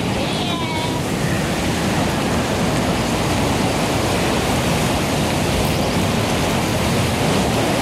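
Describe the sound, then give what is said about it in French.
Sea and stormy wind on the coast near Collioure as a storm front builds: a continuous, loud, broad roar of surf and gusting air with no pauses. “Un front orageux est en train de se développer. Et la mer commence à”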